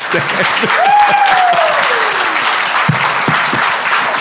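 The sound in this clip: A standing audience applauds loudly to welcome a guest on stage, a dense wash of clapping with one long whistle that rises briefly and then slides slowly downward.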